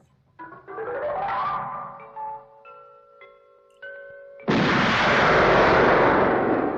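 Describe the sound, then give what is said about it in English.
Gunshot from a film's gun-barrel opening sequence: a series of electronic tones and held notes, then a sudden loud blast that carries on as a broad, sustained roar. “That's the very first gun barrel in Doctor No.”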